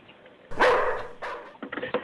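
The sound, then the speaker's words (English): A dog gives a few short barks and yelps, moderately loud, with brief gaps between them. “Come here, boy. Good doggy.”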